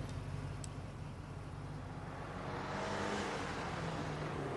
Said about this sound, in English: Later, Steve drives up outside Nicole's school in his red 1960s Mustang convertible. He pulls over at the side of the road and waits.